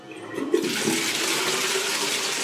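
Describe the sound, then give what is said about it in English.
Toilet flush from a brand-new automatic, hand-wave sensor toilet in a school: a short clunking start, then a loud, steady rush of swirling water that holds to the end. “these brand spanking new toilets that have got the automatic flush, so you just wave your hand over them and the toilets flush.”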